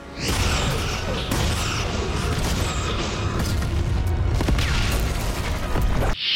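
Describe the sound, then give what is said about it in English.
A science-fiction starship fires weapon shots and flies into a nebula, heard as a dense, loud, continuous roaring rumble with whooshing sweeps and booming bursts that runs throughout and cuts off abruptly near the end. “So Titan shoots a couple of shots and then flies right into the nebula, a la Star Trek II Wrath of Khan”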